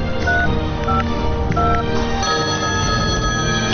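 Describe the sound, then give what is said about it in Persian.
A telephone number being dialed: a few short electronic keypad beeps sound in quick succession over a dense, steady background. “فقط کافی است با 886 چند تا 6 تماس بگیرید دیگه. دبی اندی چقدر خوب، بده به من اون گوشیت را.”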